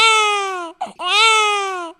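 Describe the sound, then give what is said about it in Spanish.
A German baby cries in two long, strong wails, each gliding steadily downward in pitch. A brief catch of breath separates them, and a third wail begins at the very end. “Y este segundo bebé, que es alemán, llora hacia abajo.”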